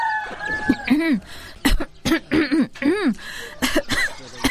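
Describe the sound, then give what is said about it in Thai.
Harsh, repeated coughing from a person with an itchy throat, blamed on dust from a nearby sugarcane mill: a rapid run of raspy, voiced hacks, loud and with no speech. “ไปทำอะไรมาล่ะแม่สมัยถึงไอขนาดเนี้ย”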